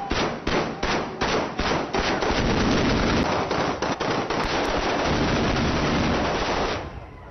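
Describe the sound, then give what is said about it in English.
Celebratory anti-aircraft gunfire as civilians celebrate the fall of the Gaddafi regime: loud, heavy, rapid shots. At first the reports are distinct and repeated, then they merge into a dense, sustained roar of continuous firing. “Anti-aircraft gun celebration.”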